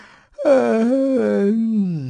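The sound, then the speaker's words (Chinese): A human voice imitates a yawn: a long, drawn-out, moaning vocal that starts after a brief pause, holds steady for over a second, then sags slightly lower in pitch as it trails off. “打了个哈欠”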